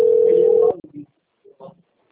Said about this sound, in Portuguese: me ligando.